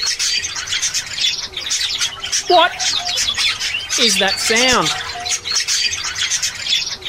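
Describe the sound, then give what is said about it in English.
Dense chirps, tweets and squawks from an aviary full of birds, many overlapping high calls in a busy chorus, with a few lower cooing or squawking notes and a short spoken question over them. “It's just an Avery of birds.”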